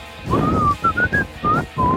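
A person whistles in an open-plan office: a few clear, fairly high notes in short phrases separated by brief gaps, loud and alone over faint background noise.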